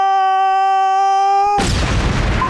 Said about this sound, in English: Airstrike, standing by.